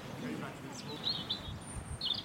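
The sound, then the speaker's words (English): Spring birdsong from robins and song thrushes near ruins in a valley of the Black Mountains: faint, high chirps and short warbling phrases over a low rumbling background. “robins and song thrushes here.”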